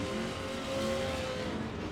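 Race cars circle a track, their engines forming a faint, steady roar with no breaks or distinct passes.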